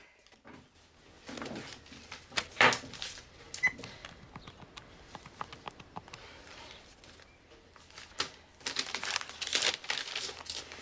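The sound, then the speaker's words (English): Paper rustles and crinkles as a plain brown paper envelope is opened in a kitchen. Faint scattered crackles build into louder bursts, one sharp tear-like burst early and a dense patch of crinkling near the end. “She also starts to open a plain brown envelope.”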